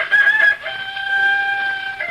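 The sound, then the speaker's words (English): A rooster crowing in one long, loud, sustained call with a strained, nasal tone that holds steady and trails off at the end. “There must be somebody here. Where there's a rooster, there's people.”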